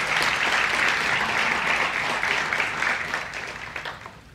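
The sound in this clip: Audience applause welcoming a speaker to the stage: dense, steady clapping from many hands that eases off and thins toward the end.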